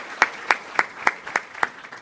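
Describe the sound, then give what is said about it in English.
Claps from an audience applauding a speaker at a school board and legislative talk: six sharp, evenly spaced claps in a slow, steady rhythm, moderately quiet against a low background hiss. “Round of applause for Bob.”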